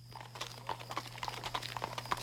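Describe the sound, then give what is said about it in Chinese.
Horse hooves clip-clop as a horse-drawn cart moves off late at night, a quick, even run of many hoofbeats over a steady low hum. “趁夜深天黑，马车离开木栾店奔郑州而去。”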